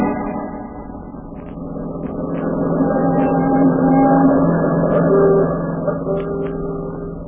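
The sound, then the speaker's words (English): An automobile engine hums as the car drives off for a ride, a steady low drone with a whining harmonic tone that gradually swells, then eases slightly near the end. “We're all going for an automobile ride.”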